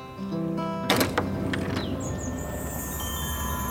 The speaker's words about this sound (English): opens a door to the outside